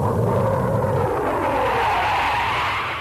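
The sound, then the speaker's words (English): Roar of a jet-powered car breaking a land speed record at the Bonneville Salt Flats, a loud continuous rushing blast whose deep rumble thins after about a second while the hissing roar carries on steadily. “That's the sound of Craig Breedlove breaking a world record in his jet-powered Spirit of America.”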